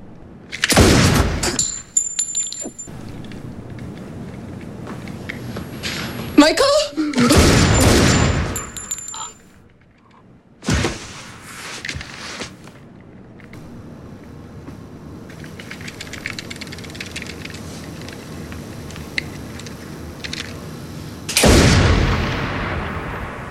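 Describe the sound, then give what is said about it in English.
Gunshots ring out in a film scene where a character shoots himself in the shoulder: a few loud, sharp bangs spaced through the scene, with quieter rumbling stretches between them. “And Michael shoots himself in the shoulder.”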